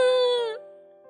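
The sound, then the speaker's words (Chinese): A little girl cries in a short, high, wavering wail that breaks off and then sinks into a lower, fading tone. “妮妮见到妈妈，终于把满腹的委屈哭了出来。她一边哭一边对妈妈讲了今天发生的事情。”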